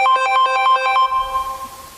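An incoming call's phone ringtone plays during a live program: a quick run of bright electronic notes repeats for about a second and then breaks off, leaving faint background noise.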